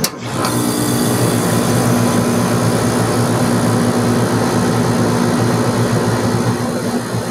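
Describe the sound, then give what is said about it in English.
An outdoor air conditioner fan unit kicking on, a loud continuous mechanical drone. A steady whirring hum carries a low tonal buzz and broad rushing noise, staying even throughout with no voices. “It's an air conditioner outdoor fan. But it kicks on.”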